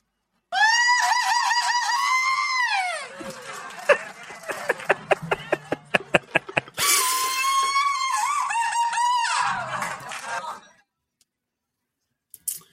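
Mexican grito yells played back: a long, loud, high-pitched cry, then a run of short, sharp staccato bursts, then a second sustained wavering shout that trails off into silence.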